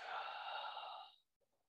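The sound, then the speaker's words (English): A deep breath is drawn in a guided breathing exercise, heard as a faint steady rush of air lasting about a second before fading out, with a tiny soft sound afterward. “So everybody, let's take a deep breath in. Come on, come on. Let's let it out.”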